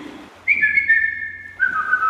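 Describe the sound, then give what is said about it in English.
A person whistles a family call signal: two clear, sustained notes, the second lower than the first, each sliding slightly downward. The whistle is fairly loud and heard alone. “When I got older, I taught it to my son. But that's our family whistle.”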